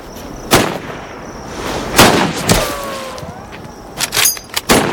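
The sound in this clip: Gunshots at target practice: several sharp, loud cracks fired at irregular intervals, with a quicker cluster of shots near the end.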